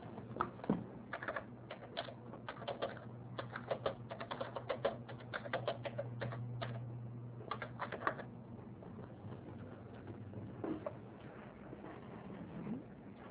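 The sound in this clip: Typing on a keyboard: many quick, irregular key clicks in busy bursts with short pauses, fairly faint over a steady low hum.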